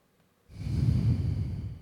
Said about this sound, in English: If you guys just want to close down your eyes we're just going to take a mindful breath here.